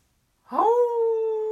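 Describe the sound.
A person's voice imitates a dog howl: one sustained, wailing tone that rises briefly at the start, then holds a steady pitch for about a second, alone with no other sound.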